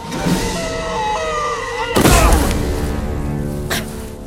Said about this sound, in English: Dredd shoots out the floor and they dodge the firestorm, sliding down a shaft.